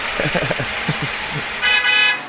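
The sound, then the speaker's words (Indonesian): Horn of an angkot minibus passing on a street, a short bright toot near the end rising over steady traffic and engine noise. “kita minggir dulu. Ada angkot lewat. Tumben gini hari masih ada angkot.”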